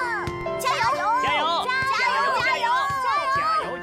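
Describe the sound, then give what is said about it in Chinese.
A group of children playing and roughhousing, their high, excited voices overlapping in constant shouting and chatter with rising and falling cries, loud and busy throughout. “你看这帮孩子，从早打到晚，像咱小时候吧。”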